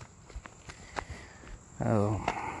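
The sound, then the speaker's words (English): Footsteps on a park trail, a few soft, irregular crunching steps that are faint and sparse, before a voice begins speaking over them. “As I, drove here to this park, and now as I walk down the trail, my brain took some pictures,”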